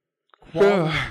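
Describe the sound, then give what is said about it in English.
A person yawns once, a brief breathy onset swelling into a drawn-out, voiced, open-mouthed exhale that stays fairly loud to the end. “I usually yawn at least once per podcast.”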